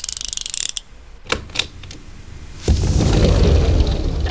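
Safe lock mechanism opening after a code is entered: a quick run of ratcheting clicks, then a couple of heavy clunks, followed by a sustained loud rumbling that lasts to the end.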